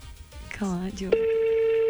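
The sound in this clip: A telephone call goes unanswered. After a brief voice, a steady mid-pitched line tone begins and holds without a break to the end.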